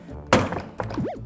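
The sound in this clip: A suitcase is struck hard to test its lock, giving a heavy dull thunk followed by a second, softer hit less than a second later, set against a faint background rumble.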